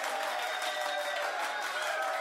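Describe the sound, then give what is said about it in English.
Applause sound effect celebrating a listener who won a lever espresso maker in a giveaway. A dense, even wash of many hands clapping holds steady for the whole short stretch, fairly soft. “How about a hand clap there? There we go.”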